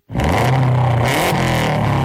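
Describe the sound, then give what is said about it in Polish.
A 280-horsepower rally car engine revs loudly, starting abruptly and holding a strong, rough, sustained roar for about two seconds with no pause. “Tak brzmi 280 koni mocy samochodu rajdowego Kajetana Kajetanowicza”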